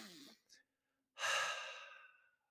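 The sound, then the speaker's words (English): Deep breathing used as a calming pause during a stressful moment: a short, soft breath, then after a brief gap a long, strong, airy breath lasting about a second. The breaths are heard alone, with no talk. “Paused. Deep breathing, right? I just paused and went,”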